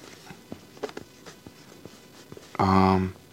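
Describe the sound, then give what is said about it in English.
Faint scratching of a pen writing notes by hand: a few soft, irregular strokes and taps, then a brief low voiced hum near the end. “Sorry, just gotta write that down. This is important.”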